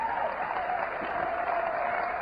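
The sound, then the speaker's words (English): Audience applause, a dense, steady wash of clapping that holds at an even level throughout without fading. “I trust you understand that you are applauding for yourselves.”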